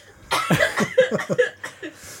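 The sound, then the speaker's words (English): Coughing fit from a piece of ginger nut biscuit stuck in the throat: a quick run of many harsh, voiced coughs, loud and with no talk over them. “Got a bit of ginger nut stuck in my throat.”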